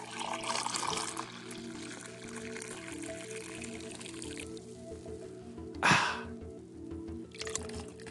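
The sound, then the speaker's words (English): Coffee drips while brewing, a faint trickling and dripping throughout, with one brief louder splashy burst near the end. “Love the sound of coffee in the morning.”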